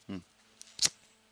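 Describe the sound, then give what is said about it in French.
A lighter is flicked in a studio, giving a soft click and then a sharp, scratchy strike, faint and brief, after a short low vocal sound. “J'ai donc fait un beau bruit de briquet.”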